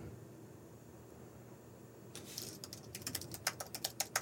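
Typing on a computer keyboard to pull up an email: a faint steady hum, then a run of quick, irregular key clicks that start halfway through and grow a little louder.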